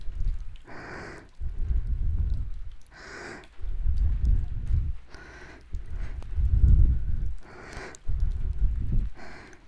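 Heavy breathing comes as a steady series of deep, slow breaths, each inhale and exhale clearly audible and fairly loud, with a soft snorting edge on some breaths.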